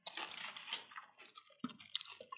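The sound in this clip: Quiet chewing of a warm chicken quesadilla, soft crunchy bites and moist squishy mastication in a few irregular bursts with short pauses, close and faint, with no talk.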